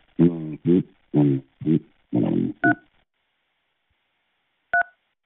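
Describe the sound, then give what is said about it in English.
Two short dual-tone telephone keypad beeps are pressed in a phone chat-line menu, about two seconds apart. They follow a brief burst of voice at the start, and the beeps sound clean against silence. “To connect live with this caller, press 1. Send a message, press 2.”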